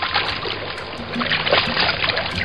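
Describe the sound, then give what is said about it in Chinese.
Water swishing and sloshing steadily as glutinous rice is washed until the water turns milky, in preparation for making rice wine; a continuous, fairly loud wash of splashing noise. “手做糯米酒洗米是基本功，将糯米洗出白浆”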